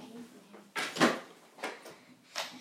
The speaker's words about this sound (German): ja, ihr seid live dabei, wenn ich aufräume oder meine Sachen im Schrank verstaue